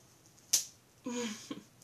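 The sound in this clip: A riding crop strikes a person once, a single sharp, bright crack. A short voiced moan follows about half a second later.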